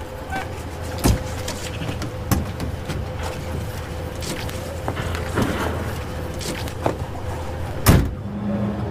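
Car doors thudding shut as passengers climb into a car in traffic, a few sharp thumps over a steady low hum of engines and traffic.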